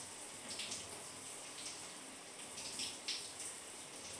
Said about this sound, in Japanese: ほら、シャワーの音とともにローションが流れていく。